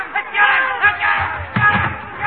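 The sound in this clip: An angry mob chases a man, several raised voices shouting over one another in loud, overlapping bursts.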